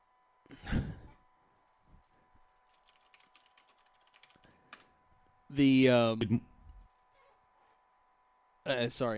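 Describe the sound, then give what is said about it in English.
Typing on a computer keyboard in a chat room: faint, irregular keystrokes tap away in the quiet between short bursts of speech. “No, I was typing in the chat room.”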